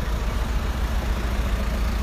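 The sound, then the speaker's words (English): Busy New York street traffic at the corner of 36th Street and 8th Avenue, a loud, steady rumble of idling and moving engines with dense low noise and no pauses. “Sorry, it's a bit of chaos here on the corner of 36th and 8th Avenue, but I got a walk signal.”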